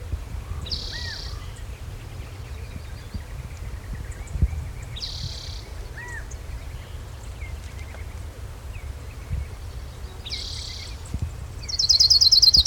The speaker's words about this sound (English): Autumn Warbler number 3.